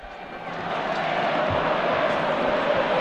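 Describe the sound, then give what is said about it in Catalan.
Football stadium crowd at a Villarreal match chanting "a por ellos", heard as a dense, steady roar of massed voices that swells slightly and holds loud throughout. “Vinga, a por ellos canta el públic nostre.”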